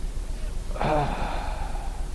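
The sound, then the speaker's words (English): A man's voice imitates the exhale of a dying man: one drawn-out, breathy sigh with a faint voiced edge, heard over a steady background hiss. “And he would exhale, he'd go,”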